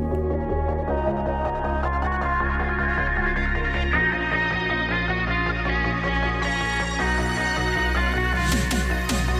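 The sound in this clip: A new pop song by a Spanish singer plays, with a steady pulsing bass and layered synth chords moving through changing sections and brightening toward the end.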